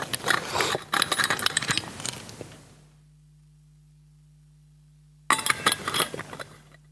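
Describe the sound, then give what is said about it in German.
Clinks and handling noises from a glass as a speaker pauses during a talk to take a sip of a drink. A cluster of clattering clinks gives way to a couple of seconds of silence, and then more clinking follows. “Schluck trinken.”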